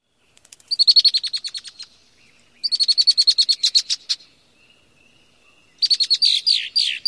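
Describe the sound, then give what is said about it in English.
A female red-winged blackbird gives its rattle song in a marsh, three rapid, high-pitched chattering bursts, each about a second or more long, separated by short silent pauses. “red-winged blackbird females also have a distinctive song. They have a rattle-type song that sounds like this.”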